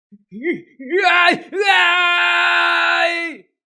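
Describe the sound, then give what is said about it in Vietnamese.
A man's angry roar: short strained vocal bursts, then one long, loud, sustained harmonic-rich yell that holds steady before cutting off. “trong miệng phát ra một tiếng gầm giận dữ”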